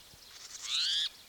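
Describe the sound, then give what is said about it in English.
A single bird cry: a bright, clear harmonic call that swells and holds for about half a second before cutting off abruptly, preceded by fainter high-pitched sound. “The cry is possibly by another bird.”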